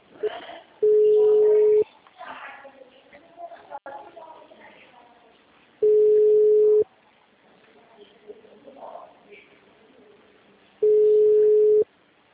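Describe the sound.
Telephone tones sound while a call is placed: three steady, mid-pitched one-second beeps at regular intervals of about five seconds. Faint talk and background noise fill the gaps between them.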